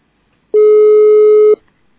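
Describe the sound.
A telephone call tone sounds once while a call is being placed: a single steady, pitched beep lasting about a second, alone against silence.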